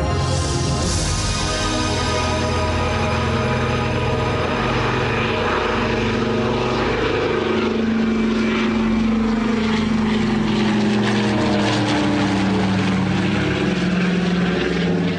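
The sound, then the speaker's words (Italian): A propeller airplane takes off with a loud, continuous droning roar of engine and airscrew. A steady pitched hum runs under the rumble and holds without a break. “Il velivolo decolla con grazia e agilità”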